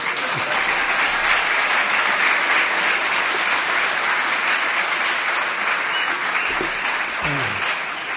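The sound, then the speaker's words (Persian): Audience applause at a storytelling performance: loud, dense clapping that holds steady for the whole stretch without a break. “دست بزنید”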